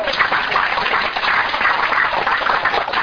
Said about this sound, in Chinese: 我想大家来拍手啊，甲欢迎一